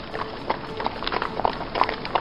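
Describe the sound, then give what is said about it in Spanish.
Clip-clop of horse hooves as horses are ridden along a long trail in Death Valley, a steady, evenly spaced series of many soft hoofbeats over a faint background hiss. “los llevaron a caballo por un largo sendero en el Valle de la Muerte”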